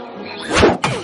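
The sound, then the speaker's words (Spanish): A bat like a baseball bat hits a flying, fast-moving ball: a swelling whoosh builds, then a single sharp thwack lands near the end, clear and moderately loud. “golpea la pelota con el bate”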